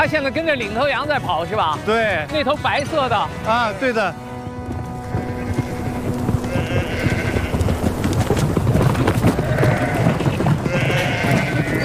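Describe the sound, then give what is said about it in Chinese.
A flock of sheep comes toward a herder's call, with many overlapping wavering bleats and a clatter of hooves. People talk over the animals, and the bleating thickens into a busy mass near the end. “羊来了，来了，你看一吹，真听话呀。”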